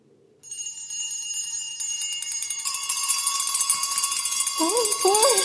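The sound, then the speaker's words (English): Every bell in a house ringing at once: a dense, bright jangle of many overlapping bell tones that swells steadily louder and keeps going, with a voice briefly cutting in near the end. “What is it? Every bell in the house must be ringing.”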